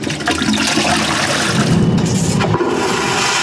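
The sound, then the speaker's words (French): A toilet flushes with a loud, continuous rush of water that stays strong and even for the whole few seconds, with no voices over it. “À chaque chasse, ce sont en moyenne 9 litres d'eau potable qui disparaissent dans les canalisations.”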